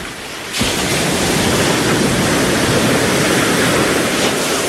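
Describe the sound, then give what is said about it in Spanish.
Ocean waves on a beach at Mar del Plata make a loud, continuous wash of surf. It swells in sharply after a brief quieter start, then holds steady with no distinct single wave breaks. “Y seguimos aquí en la playa, en Mar del Plata.”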